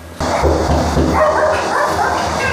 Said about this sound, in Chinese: 哎呦，看看我家这么多狗， 哇塞，这么多小狗。 一进门，我们就看到吴女士家的毛孩子们在门口热情地迎接我们的到来。